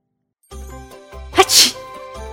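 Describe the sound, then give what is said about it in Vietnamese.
One loud sneeze bursts out sharply after a short sharp breath in, standing alone over a quiet, steady tonal hum in the background. “Trong Hắc Phong Thành, Triệu Phổ liền hắt hơi một cái”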